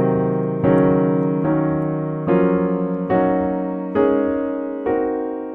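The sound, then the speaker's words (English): Locrian (half-diminished) mode scale harmonized in locked-hands style: a steady series of about seven full block chords, each struck evenly and left ringing until the next, with no talk over them. “We have now taken the entire half-diminished scale, the half-diminished mode, Locrian mode, and we have harmonized it using a traditional locked hands approach. That scale sounds like this.”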